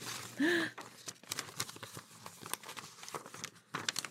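Crinkling and tearing paper as an envelope is ripped open, heard as a string of short, irregular rustling bursts at moderate loudness.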